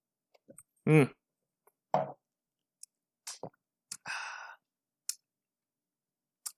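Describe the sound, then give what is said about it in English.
Bourbon whiskey being sipped and tasted: a few quiet, separate sips and mouth sounds with soft breaths and a brief voiced hum, spaced across mostly silent gaps. “Really super stellar, this Bourbon A. Take another taste, because why not?”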